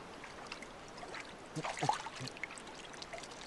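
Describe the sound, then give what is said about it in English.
Soft water sloshing and trickling as a hand feels around the bottom of a clear, still rock pool, with a brief, slightly stronger swirl midway over a faint background hiss. “The man puts his hand into a clear, still rock pool and feels around the bottom.”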